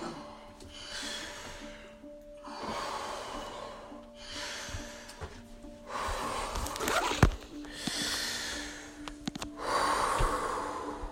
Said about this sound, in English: Breathe in. Breathe out. Breathe in. Breathe out.